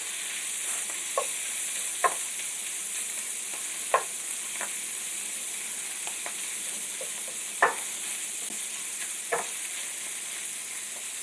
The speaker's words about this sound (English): So breaking up that chorizo, and it's getting that nice reddish brown color. Color equals flavor.